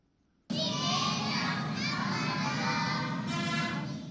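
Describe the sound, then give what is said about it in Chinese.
A group of children sing and chant nursery rhymes in Tibetan at a Tibetan school in New Delhi. Their voices burst in abruptly after a brief quiet, then form a loud, steady mass of sound. “在新德里的这所学校里，孩子们全部用藏语唱歌和吟诵童谣，他们的教师身穿传统藏袍。”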